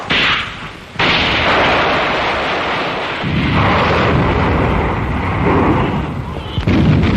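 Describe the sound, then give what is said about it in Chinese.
Artillery fire of a general assault at Fenghuang Mountain, in a battle against Nationalist troops: a loud, dense barrage of booming blasts and rumbling merges into a continuous roar, with a sharp break early on and heavier thuds near the end. “这时候传来了凤凰山我军开始总攻的炮声”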